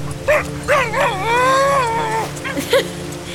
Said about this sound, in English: What's that sound? Doggo!